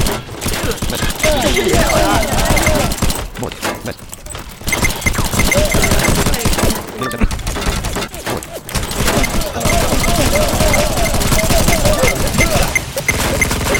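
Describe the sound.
MG4 machine gun fire in a video game: long, dense, loud bursts of rapid automatic shots with a few brief lulls, and a voice talking over the gunfire.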